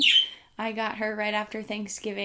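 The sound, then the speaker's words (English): A pet bird gives brief, high-pitched chirps, mostly at the start, and then a person talks over faint traces of its calls. “If you hear chirping in the background, that is my new bird,”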